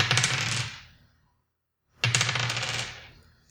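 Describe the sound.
Dice roll twice during a tabletop roleplaying game. Each roll is a bright rattling clatter lasting about a second, the two separated by a short silence.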